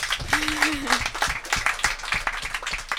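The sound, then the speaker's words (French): Audience applause at a school sporting event hosted by the French lycée in Singapore: dense, steady clapping that holds across the whole stretch, with voices and a brief sustained vocal tone rising over it early on. “Un tonnerre d'applaudissements également pour ma collègue animatrice Emma.”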